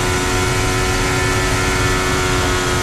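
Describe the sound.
Formula 1 car engine at almost full throttle: a loud, steady, high-pitched mechanical whine with dense, even tone that holds for the whole stretch, with no talk.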